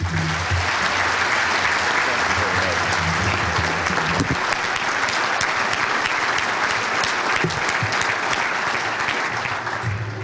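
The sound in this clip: Audience applause welcomes a guest speaker: a dense, steady roar of clapping that holds at an even, loud level throughout with no voices rising above it.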